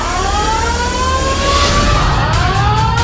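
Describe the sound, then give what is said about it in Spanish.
Several alarms blare together in a particle accelerator facility right after an explosion: overlapping wavering tones at different pitches sound continuously over a dense, steady roar, loud and unbroken throughout. “A continuación, todas las alarmas se encendieron al unísono”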